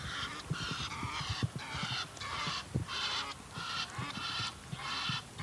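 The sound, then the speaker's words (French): Egyptian geese honking, a rapid, irregular series of many harsh, nasal calls overlapping one another, from more than one bird, moderately quiet and with no voices. “Qu'est-ce qu'on vient d'entendre ? Des ouettes d'Égypte. Il y en a encore deux qui arrivent là.”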